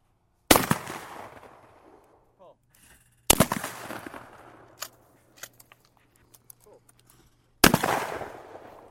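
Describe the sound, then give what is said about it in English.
Three loud shotgun blasts at a weekend skeet shoot at the Watertown Sportsman's Club, each a sharp bang with a long decaying tail, separated by gaps holding a few faint clicks and knocks. “I'm out at the Watertown Sportsman's Club's weekend skeet shoot.”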